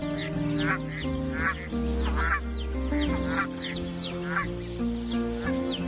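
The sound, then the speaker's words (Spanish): Canada geese and other waterfowl on a small reservoir near the Wupper river, many nasal honking and quacking calls overlapping in an uneven, repeated rhythm. “Hoy es un paraíso para la barnacla canadiense y otras aves acuáticas.”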